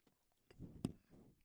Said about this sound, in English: I'm chewing a peanut.